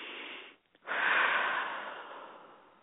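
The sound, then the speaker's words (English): A deep calming breath: air drawn in through the nose, a brief pause, then a longer, louder breath out through the mouth that slowly fades. “So why don't we take 3 deep breaths in through your nose, out through your mouth, okay, and to calm ourselves down, okay. 1, deep breath.”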